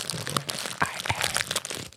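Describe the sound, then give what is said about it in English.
Crunchy bites into a croissant, crisp flaky crackles and crinkles coming in many short, uneven bursts, fairly quiet and with no talking. “If you eat your croissant, this is ASMR.”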